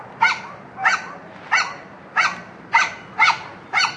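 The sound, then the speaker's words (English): Sharp, high yaps from a small yappy dog: seven short barks at a steady, evenly spaced rhythm, fairly loud and alone with no talk over them. “And the little yappy dog is probably saying the same thing.”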